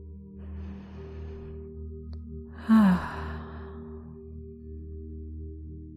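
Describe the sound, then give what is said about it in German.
During a guided relaxation exercise, a person lets out a single loud, sighing exhalation, preceded by a faint, soft breath, over a steady low hum. “Vielleicht willst du auch mit einem lauten Geräusch ausatmen.”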